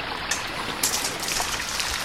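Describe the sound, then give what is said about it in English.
River water flows in a steady hiss-like rush with light trickling and splashing detail throughout, moderately quiet and free of voices. “He would wake up in the early morning and fill a large pot with water from the river.”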